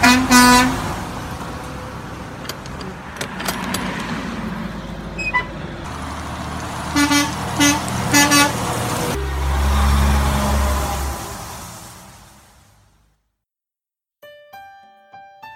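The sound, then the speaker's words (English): A truck horn sounds a few short toots over the rumble of the running engine, with fainter honks near the end. “I like riding in a truck. Yeah, well, me too. Do you care if I take a toot on your horn? Oh, I would be delighted. Toot toot.”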